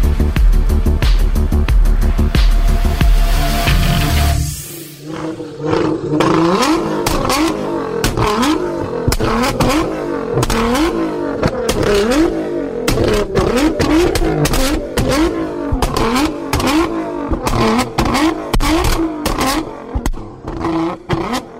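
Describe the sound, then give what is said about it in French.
A Nissan GT-R twin-turbo V6 warms up before entering the circuit. A steady, loud drone cuts off after a few seconds, then the engine revs repeatedly, its pitch climbing and dropping in a rough, continuous roar. “Le son que vous venez d'entendre est celui du V6 biturbo de la Nissan GT-R lors d'une période de réchauffement avant qu'elle ne fasse son entrée sur le circuit.”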